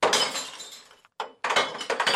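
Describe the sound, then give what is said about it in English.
Glass bottles crash and shatter as they are dropped through the lid hole of a glass-only recycling dumpster. A dense, loud run of breaking and clinking glass is cut by a brief pause, then more smashing bursts follow. “If residents want to recycle glass, they must bring it to a dumpster like this one, labeled glass only, and drop bottles through a hole in the lid.”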